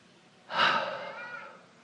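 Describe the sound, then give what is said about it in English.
A person takes one breath and exhales: a single airy rush of breath that swells quickly, then tapers off over about a second, heard alone without speech. “Take a breath and exhale.”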